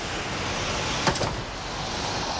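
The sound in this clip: An elevator hums steadily while moving, and its doors give a brief whirring slide about midway through before the steady drone carries on.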